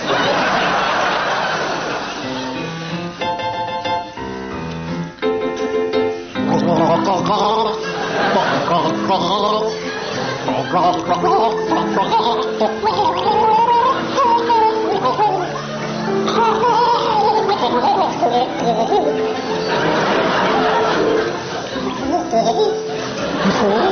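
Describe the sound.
A man gargles the tune of a show song, producing a bubbling, wavering pitched melody that carries on almost without a break, while an audience laughs loudly over it.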